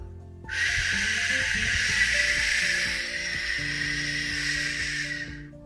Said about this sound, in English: That is not the sound of a deer. That's the sound of a waterfall.